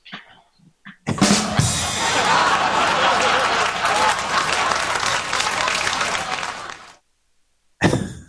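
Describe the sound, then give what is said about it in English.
Studio audience applause at a live show: a loud burst of clapping starts after about a second, holds steady and dense for roughly six seconds, then cuts off into silence. “that studio audience. That James garnered a lot of clapping and laughter there.”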